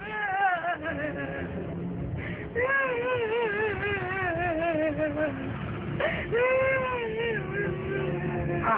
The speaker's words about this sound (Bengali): কান্না থামান, যা প্রশ্ন করছি উত্তর দিন, লাশটা কোথায় ছিল?